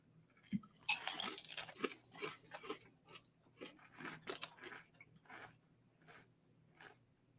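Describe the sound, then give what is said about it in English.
Loud crisp crunching of Cooler Ranch flavoured chips being chewed: big bites up front, then many quicker, smaller crunches that fade as the chewing goes on, with no talking. “So I will say... Cooler Ranch. These taste like Funyuns. They really do.”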